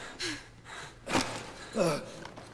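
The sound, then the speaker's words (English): Heavy, gasping breaths from a man worn out after being helped up a flight of steps: a few ragged, breathy bursts spaced apart, some with a strained voiced edge, fairly soft. “You have to slow your breathing down. Slow, steady breaths.”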